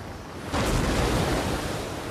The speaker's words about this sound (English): Crashing waves.